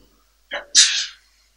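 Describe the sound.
A single sneeze: a short sharp intake followed by a loud, hissing, breathy burst that trails off, with no other sound around it.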